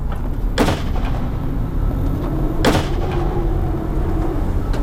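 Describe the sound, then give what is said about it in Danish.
Two warning shots are fired from guns, sounding as two sharp, loud bangs about two seconds apart over a steady, dense rumbling background. “der er ikke andet for end at affyre varselsskud.”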